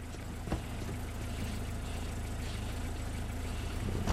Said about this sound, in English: Outside, the freshmen pull up in Square's Volvo.